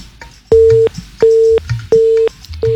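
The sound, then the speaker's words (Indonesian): A telephone busy tone follows a dropped call: loud, steady, mid-pitched beeps in an even on-off rhythm, four pulses with short gaps, the last one cut off. “Sayang sekali ya, sudah terputus.”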